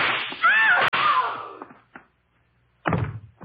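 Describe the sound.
Gunshot sound effect in a radio drama, one sharp, sudden crack that cuts into a man's strained voice, followed by more brief vocal sounds.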